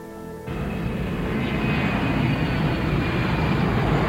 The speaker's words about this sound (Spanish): Un avión despega, es de noche.